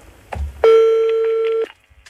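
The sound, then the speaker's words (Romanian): A telephone ringing: one loud, sustained electronic ring tone of about a second, with a brief softer sound just before it. “Tași tu că sună telefonul. Ia să vedem.”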